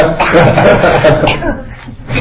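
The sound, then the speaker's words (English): A group of people cough together before Buddhist chanting, giving a loud, ragged cluster of overlapping coughs and throat-clearing with a few chuckles mixed in. “So, first of all, we have some communal coughing. Just to get it out of the way before we begin.”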